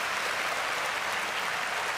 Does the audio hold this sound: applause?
yes

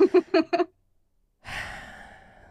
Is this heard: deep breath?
yes

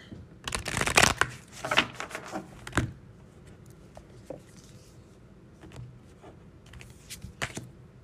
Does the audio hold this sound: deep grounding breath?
no

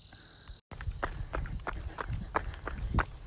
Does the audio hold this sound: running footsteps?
yes

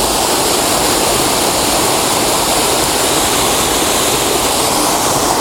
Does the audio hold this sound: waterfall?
yes

